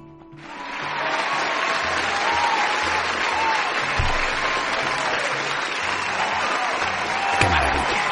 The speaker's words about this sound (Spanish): debes de preparar un aplauso de júbilo